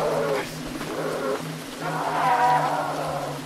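A goat in a video game gives drawn-out, wavering nasal bleats, a few calls in a row over a steady low hum.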